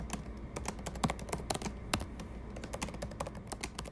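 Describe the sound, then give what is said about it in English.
Typing on a computer keyboard: many quick, crisp key clicks in an uneven rhythm, fairly quiet and with no voices. “this fingerprint sound from him, which is the sound of typing. So I guess you could say it's the sound of doing research on your computer.”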